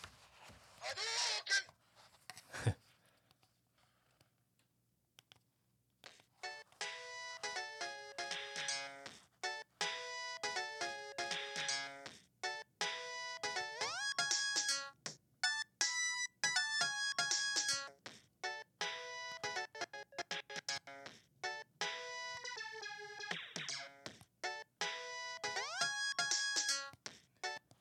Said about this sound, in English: So as you can see, that was just a predetermined pattern on the PO-133.